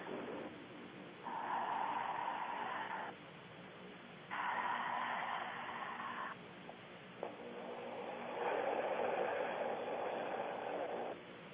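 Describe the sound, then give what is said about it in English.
A person taking three slow, deep breaths, each a long, airy rush lasting about two seconds, separated by short pauses; faint and heard alone. “you'll hear me take a couple deep breaths”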